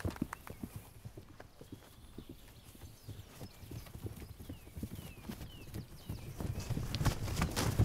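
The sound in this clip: A herd of horses moves toward a newborn foal, hooves clip-clopping in many soft, irregular steps that overlap and grow slightly louder toward the end.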